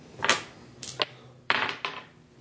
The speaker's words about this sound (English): So roll your dice